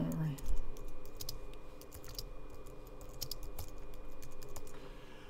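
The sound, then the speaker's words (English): Typing on a computer keyboard produces many quick, light key clicks in uneven bursts. The clicks are faint over a low steady hum. “I'll just type it in here for those people who are watching it live.”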